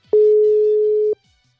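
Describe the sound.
Outgoing ringing tone of a WhatsApp video call: a single clean, steady mid-pitched beep lasting about one second, starting and stopping abruptly, alone against near silence.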